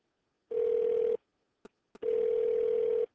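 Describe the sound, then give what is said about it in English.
A telephone call being placed to a number: two steady, buzzy ringback tones, the second longer than the first, separated by a gap with two brief clicks. “I will be muted out while I dial the number, but you'll follow along.”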